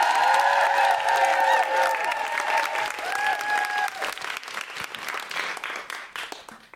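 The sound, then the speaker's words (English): An audience applauds and cheers to welcome a comedian on stage, with dense, loud clapping and high whoops at first that gradually thin out and fade. “It's Deborah Frances White, and she's going to be doing some comedy. Please, everyone, make a lot of noise and welcome her to the stage that she's on.”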